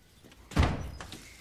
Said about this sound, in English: The door opens.